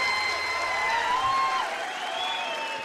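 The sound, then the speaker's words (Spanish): A rock concert crowd in Mexico applauding and cheering, a steady roar of clapping with sliding high whistles and whoops drifting above it. “Martínez, un aplauso enorme para él.”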